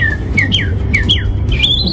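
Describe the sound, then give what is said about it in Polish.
At a birdsong imitation contest, a human mouth mimics bird trills. Loud whistled chirps sweep down in pitch in a quick series, and a final whistle rises. “Ptasie trele wychodzące z ludzkich ust budzą entuzjazm.”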